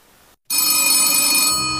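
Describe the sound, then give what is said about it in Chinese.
A telephone bell ringing late at night in 1965. After a brief moment of silence, a loud, bright, continuous metallic ring starts abruptly and holds steady to the end. “中国人民解放军副总参谋长张爱萍在睡梦中被电话铃声惊醒”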